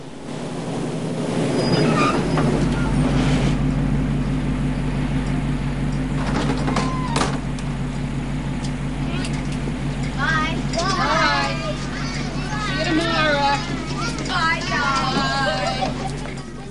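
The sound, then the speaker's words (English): A yellow school bus with a luggage rack on its curved roof chugs along a hill road overlooking San Francisco, a steady low engine drone running throughout, with voices talking over it. “Now a yellow school bus, with a luggage rack on its curved roof, chugs along a road up the hills overlooking San Francisco.”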